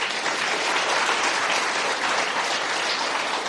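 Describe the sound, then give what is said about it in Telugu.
An audience claps vigorously at a religious discourse: a loud, continuous wash of many hands with no pauses, lasting several seconds. “ఈ రోజు నుంచి మీరు కంకణం కట్టుకుని మేం గంగని బాగు చేస్తాం అని మీ మనస్సును అనిపిస్తే చప్పట్లు బాగా బాదండి.”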